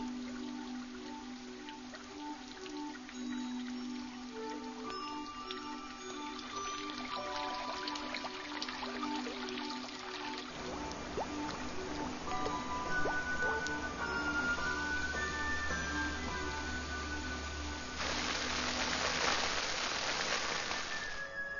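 Snowmelt water trickles down mountain slopes in a soft, continuous dribbling and squishing, quiet and unbroken throughout.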